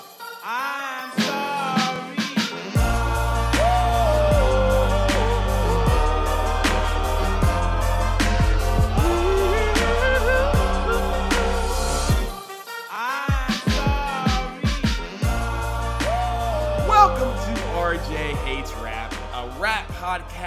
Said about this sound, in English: It's rap music, and it sounds like this.